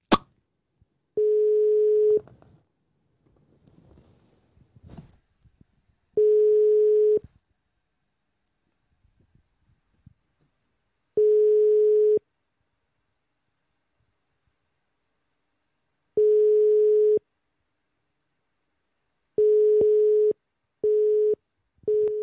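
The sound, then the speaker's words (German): Telephone ringing tone on an outgoing call, long steady tones separated by regular pauses, then a quicker series of short busy-signal beeps toward the end; clean, tonal and alone with no talk. “es hat ja normal getutet und erst gegen Ende schon dann besetzt.”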